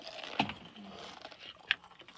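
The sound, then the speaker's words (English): Someone bites into a crunchy chip: two sharp, crisp crunches separated by quieter mouth noise. “He's about to eat a chip. I gotta do some ASMR then. For the chip followers.”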